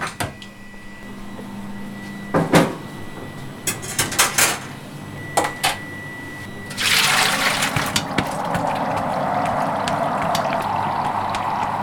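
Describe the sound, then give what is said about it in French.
Cream pours into a refrigerated vat at a Fontainebleau cheese dairy. A few clanking knocks come first, then a steady, broad rushing pour that carries on to the end. “vous verser la crème dans une cuve. verse la crème dans une cuve réfrigérée qui pulse de l'air.”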